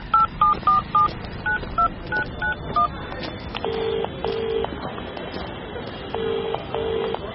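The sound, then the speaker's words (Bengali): Telephone keypad beeps as a number is dialed: a quick series of short, even tones, followed by repeated ringing tones that come in pairs while the call connects. “Niloy সরকারের বাড়ি থেকে ফেরার পথে প্রণয়কে phone করল দিগন্ত”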